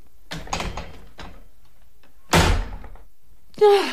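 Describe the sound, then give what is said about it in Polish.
A small wardrobe door slams shut in a radio drama scene. A few light knocks and rattles come first, then one loud, sharp slam with a short rattling tail, and another sudden sound follows at the end. “Kusy już zniknął, zatrzaskując za sobą drzwiczki szafy”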